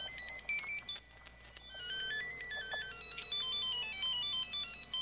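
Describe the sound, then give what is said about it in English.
A new mobile phone rings with a busy electronic melody of high, quickly shifting notes and rapid chirps, playing continuously and fairly faintly. “When you call my number, this is what you get.”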